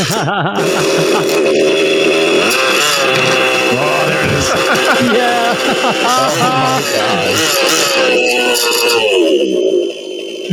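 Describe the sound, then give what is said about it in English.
Nitro RC model engine started and run indoors, giving a loud, continuous, high-pitched buzzing whine whose pitch wavers and surges as it revs, holding steady for about ten seconds before cutting off. “starting a nitro inside his house”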